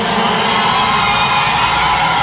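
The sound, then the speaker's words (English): A crowd at a live music event applauds and cheers for a performer being introduced. The clapping and shouting blend into a loud, continuous roar that stays level throughout. “Bon applaudissement pour Carlo Vieux”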